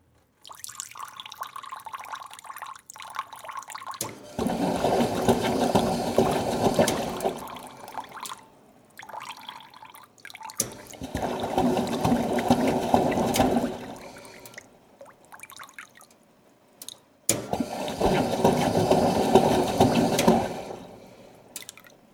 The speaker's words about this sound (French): L'eau qui coule, l'eau qui coule, l'eau qui coule